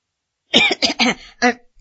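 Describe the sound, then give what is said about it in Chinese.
A man coughs a few times in short, rough bursts, the first ones bunched close together and a last one after a brief pause, with no talking. “咳嗽了两声”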